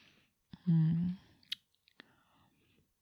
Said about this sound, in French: Délicieux baiser. Ta bouche est si douce.